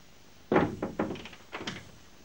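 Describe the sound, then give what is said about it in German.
A door is shut behind someone stepping in, heard as a few soft, dull thunks and knocks. The first is the strongest, the rest trail after it, all fairly quiet, with no talk. “Komm rein und mach die Tür hinter dir zu.”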